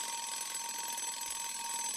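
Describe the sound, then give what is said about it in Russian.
A loud alarm clock rings in a continuous, even stream, with no pauses or breaks and no voices. “На следующее утро мой сладкий сон прервал звонкий голосистый будильник.”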